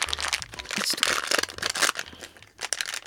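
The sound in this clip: Crinkling and tearing of a snack packet of Australian macadamia nuts and cheese, with dense bursts of plastic rustle and a few sharp crunchy cracks, heard without talk.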